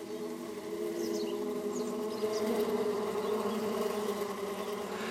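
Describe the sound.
A swarm of honeybees in flight gives off a continuous, even buzzing drone, with layered humming tones held steady throughout and no pauses.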